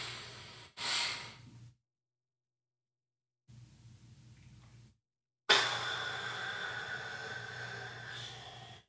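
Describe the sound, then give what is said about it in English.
A forced breath is pushed out through the mouth during a breathing exercise. Short breathy puffs and a quieter stretch lead into a loud, hissing exhale that starts sharply and slowly tapers off over several seconds. “hold for 7, exhale forcibly out of my mouth for 8. Another one of those.”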